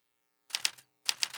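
Typewriter keys clack in two quick bursts of sharp mechanical strikes separated by a short pause, on a machine said to need servicing.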